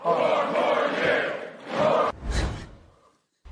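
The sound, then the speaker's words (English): A crowd at a political speech chants "four more years," a loud surge of many voices that stops abruptly, followed by a shorter burst of crowd noise that fades out. “And everybody started chanting, trying to save him there.”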